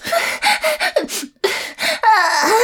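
Heavy breathing during a breathing exercise: many quick, rough inhales and exhales in an uneven rhythm, some with a slight voiced, gasping edge. A longer strained breath with a falling tone closes the sequence.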